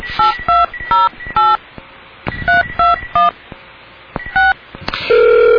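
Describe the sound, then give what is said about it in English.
Touch-tone beeps ring out as a telephone number is dialed: many short, loud electronic tones in quick irregular groups separated by brief pauses, ending in a steady continuous tone on the line. “And I'm going to call and hear about what's going on with his commute today.”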